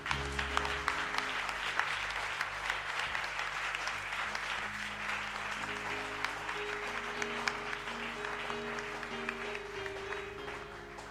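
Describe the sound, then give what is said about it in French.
An audience claps to acclaim Jesus for reported healings, a continuous wash of many hands applauding that holds steady and eases slightly toward the end, with sustained musical tones running underneath. “Waouh, on acclame Jésus pour toutes ces guérisons.”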